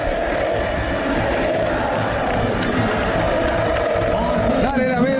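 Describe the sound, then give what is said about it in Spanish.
Belgrano football fans singing in the stadium, a dense, loud chant of many voices that stays steady and continuous from start to finish. “Canta el público de Belgrano, de negro Belgrano, todo de negro”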